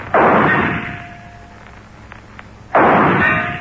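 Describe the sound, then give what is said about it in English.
Two gunshots from a .38 caliber gun built on a .45 frame: loud, sharp blasts about two and a half seconds apart, each trailing off in a long fading tail. “What's the gun? 38 caliber on a 45 frame?”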